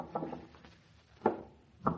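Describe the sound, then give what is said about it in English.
Knocks on the door of an attic room come as a few soft raps, a quick cluster early on followed by two more spaced apart, faint against a quiet background. “That knock nearly jumped me out of my skin, but it was too hot to move that fast. So I pulled out my gun and opened the door”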